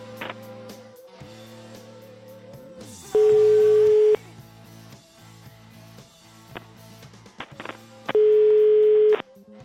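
Telephone ringback tone on an unanswered call: two long, steady beeps, each about a second, roughly five seconds apart, loud over a quieter, murky background of tonal sounds.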